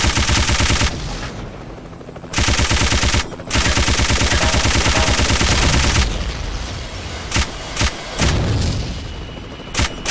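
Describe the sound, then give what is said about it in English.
Machine-gun fire in long, dense bursts of rapid, evenly spaced shots, loud and sustained, broken by short gaps. It ends with scattered single sharp cracks. “Missile was supplied. Machine gun.”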